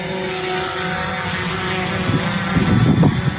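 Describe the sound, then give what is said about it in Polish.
Drone in flight under an operator's control, a continuous buzzing whine with steady tonal hum and a rougher, louder rumble rising toward the end, with no talk. “Pan teraz jest operatorem tego drona.”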